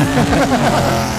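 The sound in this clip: A race car speeding past as a sound effect: a loud, whining engine roar whose harmonic tones shift and bend across the short burst, staying strong from start to finish.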